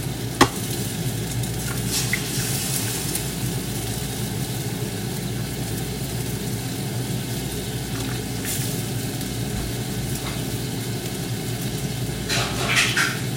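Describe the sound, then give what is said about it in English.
Two fresh eggs fry in an egg ring with a steady, crackling sizzle, broken by a sharp click near the start and a few faint scrapes along the way. “So we're not doing scrambled eggs today. So just using two fresh eggs to my egg ring.”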